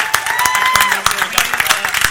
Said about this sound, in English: I want to give them a hand clap. These guys right here, thank you so much. Come on, give them a hand clap.